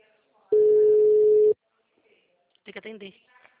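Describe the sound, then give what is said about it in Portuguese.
A mobile phone ringing, heard as a single steady electronic tone lasting about a second, then a short pause before a voice begins to speak. “Tem que atender. Tem que atender.”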